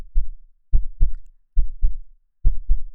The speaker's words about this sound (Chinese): 这是你第一次参加运动会时的心跳哦，